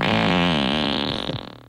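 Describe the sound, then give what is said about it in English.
A long, loud fart lasts almost two seconds. It starts as a buzzing, wavering tone and breaks into a quick sputtering rattle before it fades out. “That's actually me in the audio. That's me farting and laughing.”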